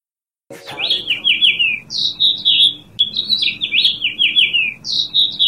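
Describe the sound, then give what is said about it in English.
A songbird nesting above a building entrance in Iowa sings continuously in bright, high-pitched chirping phrases. The short warbling notes repeat in quick succession, and the song stays loud and steady throughout. “Did you know that a songbird with a beautiful voice has come to Iowa from New York City, and they are nesting above the Pantorium entrance of KHOI?”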